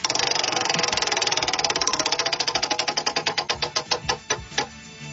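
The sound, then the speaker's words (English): A prize wheel is spun and its pointer clicks rapidly against the pegs. The clicks start as a dense, fast rattle, then slow steadily into distinct, spaced ticks as the wheel winds down, with a faint murmur underneath. “All right, I'm going to spin the wheel. Here we go.”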